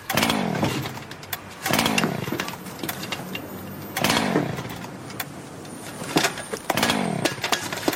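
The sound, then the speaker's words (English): A motorbike engine fails to start: a few loud, rough bursts of cranking and sputtering, each fading back before the next attempt. “It's just my bike, it won't start.”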